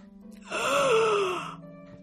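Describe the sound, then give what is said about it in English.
A single drawn-out dramatic gasp from one voice, about a second long and strongly voiced, its pitch rising and then sinking, alone after a quiet low hum. “For a dramatic gasp.”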